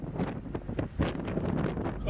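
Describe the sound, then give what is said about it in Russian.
Strong wind roars during a sandstorm in Hami County, a dense, unbroken rushing gust that stays steady across the whole moment. “А в уезде Хами песчаная буря сопровождалась также сильным ветром.”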